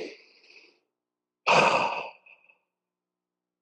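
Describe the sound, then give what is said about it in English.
A deep breath comes as one loud, long, airy sigh, preceded by a fainter breath and followed by near silence. “So I'm going to take a deep breath and then we will start our show.”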